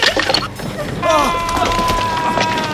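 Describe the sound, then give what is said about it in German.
A mine tunnel collapses, heard as cracking and splintering wood with sharp knocks and creaking, strained tones, loud and busy throughout. “Der Stollen bricht zusammen.”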